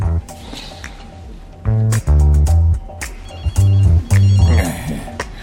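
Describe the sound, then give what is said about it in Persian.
A telephone rings during a call in short, loud bursts of bright tones that come in pairs, with quieter pauses between them. “فقط بهش زنگ بزن و بگو کار پیش اومده.”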